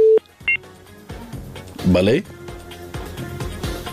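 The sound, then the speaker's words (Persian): Short electronic dial beeps sound as the next phone call is connected: one clear tone, then a brief double tone. Indistinct talk follows. “میریم تماس بعدی را وصل میسازم”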